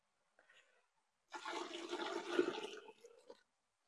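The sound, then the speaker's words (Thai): Freshly boiled hot water is scooped and poured into a dye bath: a faint short splash comes first, then one gushing pour of about a second and a half that fades into a brief trickle. “น้ำร้อนค่อนข้างร้อนเลยค่ะเพราะว่าน้ำเพิ่งเดือดเราจะใช้การวิธีการตักลงไปก่อน”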